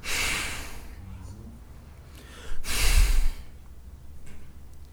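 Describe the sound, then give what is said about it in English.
A voice imitates a bull snorting, forcing heavy breaths out through the nose in two rough, noisy bursts, the second longer and louder than the first. “And here's the literal picture of wrath. To snort, to breathe heavily with the nose”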